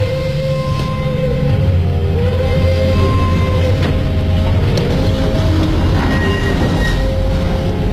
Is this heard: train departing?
yes

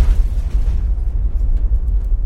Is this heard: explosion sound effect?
yes

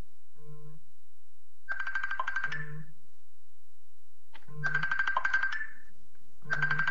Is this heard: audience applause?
no

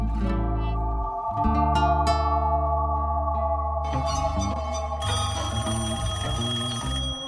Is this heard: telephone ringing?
yes

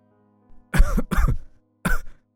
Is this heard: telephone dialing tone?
no

